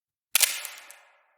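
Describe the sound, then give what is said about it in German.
A camera shutter release fires once as a single sharp, crisp click that fades out over a short tail. “Nervös lag sein Finger auf dem Auslöser. Dann endlich drückte er ab.”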